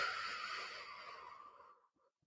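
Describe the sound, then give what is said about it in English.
A long breath is exhaled out through the mouth: a breathy, hissing rush that starts full, slowly thins and fades to silence, alone without talk. “Hold it and exhale all that that bad energy, that negative energy, all those intrusive thoughts. Exhale that out through the mouth.”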